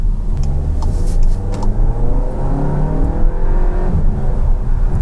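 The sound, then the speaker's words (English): A 2023 VW Arteon's turbocharged gasoline engine accelerates hard in sport mode with its DSG gearbox, giving a loud, sustained, rumbling roar with steady induction noise. No voices. “You get into boost, you stay into boost, and it just goes. You get a little bit, you get a fair amount of induction noise.”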